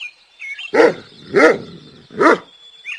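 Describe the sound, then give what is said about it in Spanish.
Three loud dog barks, evenly spaced, each a short harmonic yelp that stands alone with no talk over it. “¡Ladra! ¡Está ladrando!”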